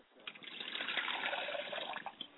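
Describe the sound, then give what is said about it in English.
Liquid poured out as a libation in a ceremony, a steady splashing trickle that runs unbroken for about two seconds, with no one talking over it. “I pour libations to the east, and I say Ashe.”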